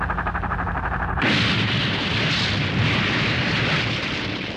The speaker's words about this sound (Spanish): Prepárense para disparar. Apunten al robot, pero no le hagan daño a la niña.